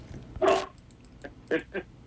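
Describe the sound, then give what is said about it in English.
A big dog barks three times: one fuller bark, then after a pause two quick barks close together. The barks are fairly faint against a quiet background. “That was the dog. Okay, I got you. He's a big dog. Sounds like a big dog.”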